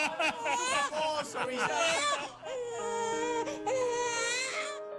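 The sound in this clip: A baby cries on a bus in loud, wavering wails that rise and fall in repeated bursts, then stretch into longer sobbing cries.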